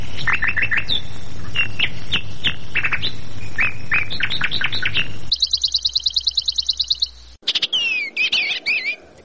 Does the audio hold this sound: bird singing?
yes